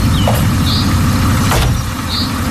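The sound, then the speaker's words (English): A small car engine runs with a steady, broad rumble that stays loud and even throughout, with no clear rise or fall in pitch. “nice little bloody car this. Nice little engine, and listen to this.”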